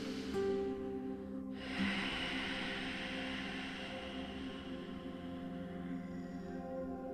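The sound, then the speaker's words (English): A single slow breath in and out through the nose, taken while sitting cross-legged in a yoga pose. The breath is soft and unhurried over a steady tonal hum. “hold here in a cross-legged seated position for just a single breath in and out through the nose.”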